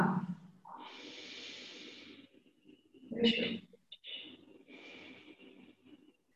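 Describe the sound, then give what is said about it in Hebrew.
Breathing exercise: a long, airy exhale drawn out over a couple of seconds, followed by an inhale with a short, sharp nasal rush, soft and alone with no talk. “נשיפה ארוכה. שאיפה.”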